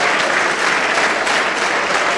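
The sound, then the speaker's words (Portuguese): A church audience applauds during a Sunday service as people come forward, producing loud, dense, continuous clapping that holds a steady level throughout. “Vamos aplaudir muito enquanto estas pessoas vêm.”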